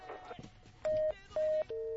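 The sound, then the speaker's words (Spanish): Phone tones while placing a call: three short, steady electronic beeps in quick succession, the last slightly lower, following brief background talk. “Perfecto, pues vamos a marcarle entonces, no nos cuelgues”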